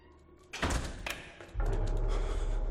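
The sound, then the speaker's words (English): A glass door leading outside swings shut with a few dull thuds and knocks as it closes, followed by a steady low rumble. “Down a passage, a glass door leading outside swings closed.”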